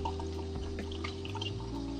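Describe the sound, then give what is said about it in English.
Water runs from a tap as hands are washed: a steady, fairly quiet stream of splashing with a low, even hum underneath throughout. “I'm washing my hands, ladies and gentlemen. Wash your hands.”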